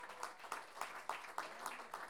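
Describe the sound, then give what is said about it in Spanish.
An audience at a payador improvisation contest applauds as a contestant advances. The clapping is faint and steady, with evenly spaced claps about every quarter second, like one rhythmic round of hands. “Aplausos.”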